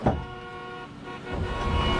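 Road traffic with car horns honking, sustained tonal toots layered over a continuous rumble of vehicles.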